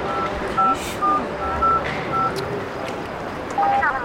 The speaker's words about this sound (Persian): یه زنگ بزن ببین کجاست.